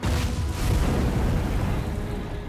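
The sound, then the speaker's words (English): A loud explosion rips through the upper story of a burning fire station, heard as a dense, roaring blast that holds steady and heavy for the whole stretch, with no voices over it. “As they approach, an explosion rips through the upper story.”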